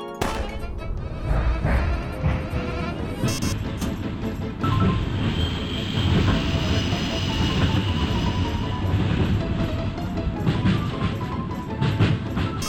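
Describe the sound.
A mine cart in a video game rolls along rails with a continuous loud rumbling clatter full of rattling knocks and metallic bangs, steady throughout.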